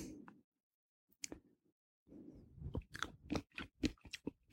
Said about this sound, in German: Das werde ich jetzt mal probieren. Das sind also sauer eingelegte Senfkörner.